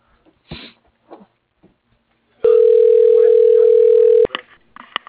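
Telephone dial tone while placing a call: one steady, flat tone holding for about two seconds, cut off abruptly, with faint rustles and soft knocks before it and a few small clicks after.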